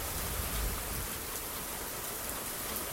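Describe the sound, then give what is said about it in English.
Rain falling during a storm, heard from a back porch: a soft, even hiss of drops on surfaces that holds steady throughout. “I'm now sitting on my back porch, and you can hear the rain and the thunder.”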